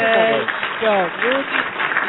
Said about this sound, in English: we're on cue with me, Sharon, so you'll have to forgive the applause being a little bit out of sync